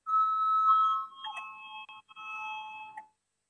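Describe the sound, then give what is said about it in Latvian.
An electronic voting bell sounds in a parliament chamber, a clear, fairly quiet ringing tone that shifts between a few steady pitches for about three seconds before cutting off, with no voices. “Lūdzu zvanu, balsosim par septīto tieslietu ministra Bordāna priekšlikumu.”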